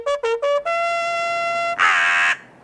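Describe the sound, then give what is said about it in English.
A bird noise made of three short, harsh, nasal notes, then a long sustained call that ends in a louder raspy burst. “can you put in like a bird noise?”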